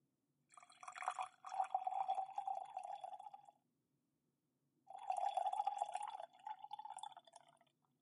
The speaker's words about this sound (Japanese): それでは、湯飲みのお湯を急須に入れましょう。